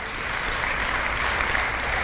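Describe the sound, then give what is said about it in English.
Audience applause for a veteran missionary as he is introduced to a gathering: a dense, steady wash of many hands clapping at an even, fairly loud level throughout, with no pauses. “Give a hand clap to him.”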